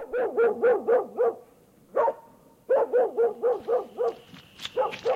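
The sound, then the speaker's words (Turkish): A mangy stray dog barks outside a house in Tabriz in two quick runs of many sharp, yelping barks. A short pause separates the runs, one lone bark falls between them, and more yips follow at the end. “Bu uyuz köpekte, koca Tebriz'de hiç yer yokmuş gibi hep benim evin önünü bulur.”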